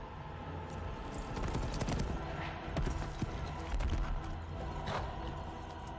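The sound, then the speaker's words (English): A horse carrying a rider gallops with its hooves clip-clopping in a rapid, continuous, fairly loud clatter, dense with other overlapping sounds throughout. “Incredible horse riding, by the way. Amazing.”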